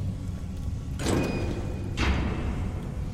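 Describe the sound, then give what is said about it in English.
A heavy dwarven gate grinds open in Skyrim's Blackreach, a video game. Two mechanical surges about a second apart rise over a steady low rumble, with no voices. “Open the gate.”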